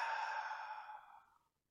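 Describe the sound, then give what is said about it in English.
A single long, soft exhale during a guided relaxation exercise, breathy and gently fading to silence after about a second and a half. “if you breathe in deeply, close your eyes, exhale and relax.”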